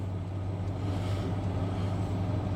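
A car engine lugging under load while driving on a dirt road, a steady low droning rumble with broad road and wind noise layered over it, no voices.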